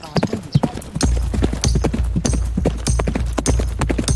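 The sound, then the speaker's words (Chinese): Mongolian horse hooves clip-clopping on grassland in a steady, loud, rapid rhythm of many beats, with a low rumble running underneath. “蒙古马是站着睡觉的马，不怕风寒，平时在牧区都是野生放养的状态，桀骜不驯是他们的性格，想要降服他们并不容易。”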